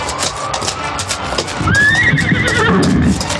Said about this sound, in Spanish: Al paso lento de sus cabalgaduras, se alejan del valle